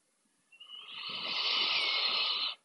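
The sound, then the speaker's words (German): A deep, slow breath drawn in through the nose during a guided mindfulness exercise: a steady airy hiss that swells and lasts about two seconds, heard alone in quiet. “nimm zu Beginn für dich ein paar ganz achtsame und tiefe Atemzüge durch die Nase ein”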